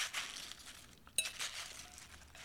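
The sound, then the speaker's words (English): Tossing a spinach and onion salad with dressing makes soft, faint rustling and crinkling, with light clinks and one sharper clink near the middle. “I'm going to be mixing her up. It's actually kind of hard to mix up onions when they get into that state of connectedness that they sometimes are in naturally”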